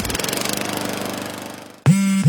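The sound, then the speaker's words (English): A Gravely lawn mower engine runs in a steady, loud drone with a rapid rhythmic pulse. It eases slightly in level before cutting off abruptly near the end. “Take your lawn mowing up a notch with a Gravely.”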